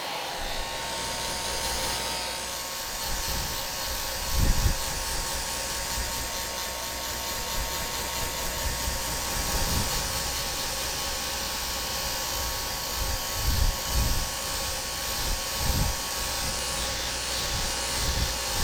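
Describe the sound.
A hair dryer blowing while someone's hair is dried: a continuous, even whoosh of air with a faint steady whine, broken by a few soft low bumps.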